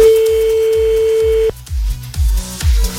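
A telephone call is dialed during a radio prank call: a steady, clear phone tone holds alone over a pulsing, low music beat for about a second and a half, then cuts off, leaving the thumping music.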